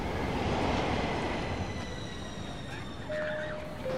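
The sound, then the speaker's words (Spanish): A metro train arriving at a station: a dense, steady rumble of wheels and carriage noise, joined near the end by a thin, sustained wheel squeal. “Imagina que un día vas caminando y llegas a la estación de metro para tomar el tren.”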